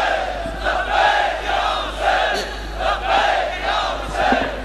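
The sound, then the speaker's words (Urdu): A large religious gathering chants the slogan "Labbaik ya Hussain" in unison. The massed voices swell in repeated rhythmic surges, loud and sustained, with the crowd holding each phrase before the next wave. “لبیک یا حسین۔ یہ چند نعرے، ایک minute, یہ بہت بڑا اجتماع”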